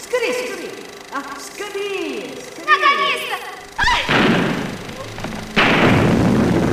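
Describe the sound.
Gunfire in a dramatized scene, dense and chaotic, with heavy thudding blasts and a couple of loud bursts in the second half, while agitated voices cry out underneath.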